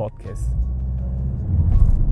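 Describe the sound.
A car driven fast produces a continuous deep rumble that stays loud and steady, with faint speech-like sounds above it.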